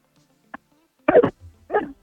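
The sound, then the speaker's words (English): A person's voice imitates a very angry dog barking, producing a few short, harsh, gruff bursts in quick succession after a faint click. “Can you make a sound of a very angry dog barking?”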